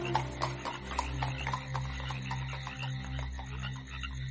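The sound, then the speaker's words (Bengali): Hooves clip-clop as two horses pull a carriage through a gaslit Kolkata street at night, a steady run of light rhythmic knocks over a low droning background. “গাড়ির লণ্ঠনের আলো জ্বলল, ঘোড়া দুটো অস্থির হয়ে উঠল। কলকাতার গ্যাসের আলোয় মাখা রাতের মধ্যে বেনুকে নিয়ে গাড়ি অদৃশ্য হয়ে গেল।”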